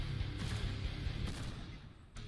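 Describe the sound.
Gunshots in a rhythm shooting video game: a few sharp, booming blasts spaced out over a dense, loud game soundtrack.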